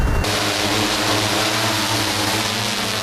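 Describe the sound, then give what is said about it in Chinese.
A drone about to take off for aerial feeding of Siberian tigers: a loud, steady propeller whine with a layered tonal hum, holding at an even level throughout. “现在无人机准备起飞，”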